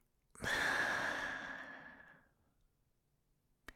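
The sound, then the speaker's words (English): A single slow, breathy exhale during a breathing exercise, lasting about two seconds and fading gradually into quiet. “Breathe in. Hold it for a second. And breathe out.”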